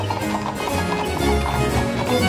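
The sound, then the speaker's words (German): Horse hooves clip-clopping from a horse-drawn carriage arriving at a baroque palace and its formal gardens, with steady, loud, continuous hoofbeats blended into a dense, busy layer of sound. “Wenn man durch die barocke Gartenanlage auf das prunkvolle Schloss schaut, kann man sich gut vorstellen, wie die Kutschen vom Residenzschloss Rastatt kommend vorfuhren.”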